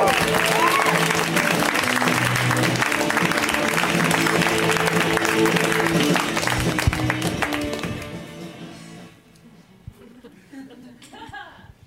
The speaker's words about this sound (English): Let's hear it right now for Tony Sam. Give it up for Tony.